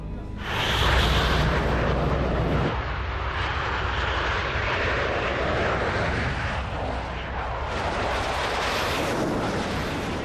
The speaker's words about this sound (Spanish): El producto más reciente de la industria soviética, el Mikoyan Gurevich modelo 15, también conocido como MiG-15.